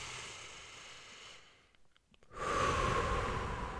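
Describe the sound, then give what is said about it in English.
A person taking a deep breath: a soft airy hiss, a brief near-silent gap, then a louder sustained breathy rush of air, with no talk. “Let's all take a breath.”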